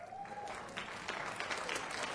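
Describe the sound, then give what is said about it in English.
Steady, dense clapping from a group of singers, continuous and even throughout, with a faint sustained tone fading out in the opening moments. “All the singers are clapping right now.”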